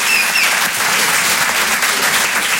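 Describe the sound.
Dense, steady audience applause in a comedy club as a comedian is called to the stage. Loud, continuous clapping holds at an even level throughout.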